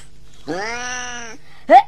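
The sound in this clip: A cat meows: one long, steady, tonal meow, then a brief pause and a short, sharper, louder call. No other sounds are heard.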